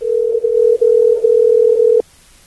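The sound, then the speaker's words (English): A telephone dial tone sounds while a call is being dialled: a loud, steady low hum with a few brief dips that cuts off abruptly after about two seconds, leaving near silence. “Dialing away.”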